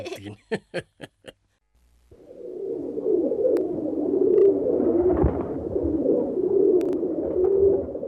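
A pigeon cooing in its nest: a few sharp clicks come first, then, after a short pause, a low, rolling, throaty coo that continues steadily for several seconds with a gently pulsing rhythm.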